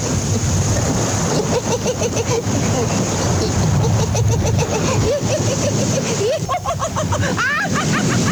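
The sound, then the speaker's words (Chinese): Sea waves make a continuous, loud, broad wash of surf with no pauses. Voices and shrill, laughing calls sound over the noise. “有海浪的声音”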